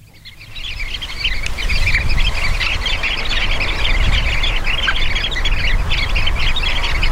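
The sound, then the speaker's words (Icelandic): Calls of sanderlings (Calidris alba), a shorebird said to gather in large flocks: many overlapping high, sharp chirps and squawks keep up a continuous chatter over a low, steady rumbling background. “Já, Calitris alba og ég held að við ættum jafnvel bara að vinda okkur í hljóðið.”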